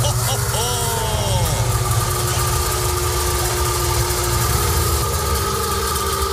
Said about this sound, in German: das ist der Sound des Wartburg Melkus RS 1000, der einzig echte Sportwagen der ehemaligen DDR.